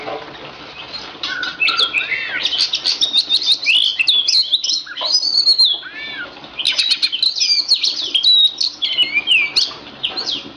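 An oriental magpie-robin (kacer poci), a national champion songbird, sings loud, varied runs of rapid whistles, trills and chirps in dense bursts, with a brief pause midway.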